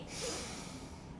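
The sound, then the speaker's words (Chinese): A deep breath drawn in through the nose and mouth: a steady, airy inhalation of about a second, heard alone. “预备，我要吸气喽！你也一起来试试看哦！预备备，吸！”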